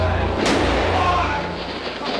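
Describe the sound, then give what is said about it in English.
A gunshot in archival news footage of Lee Harvey Oswald being shot: one sharp bang early on, buried in loud, continuous crowd clamor and shouting voices. “He's been shot. He's been shot. Lee Oswald has been shot. There's the man with a gun.”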